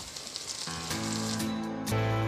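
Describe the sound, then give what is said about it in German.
Meat for an Afghan rice-and-meat dish sizzles as it is seared in a pan. The steady, fairly faint hiss runs the whole time and swells a little toward the end. “Und wir brauchen hier noch ein bisschen Zeit, um das anzubraten.”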